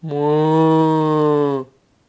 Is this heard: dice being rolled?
no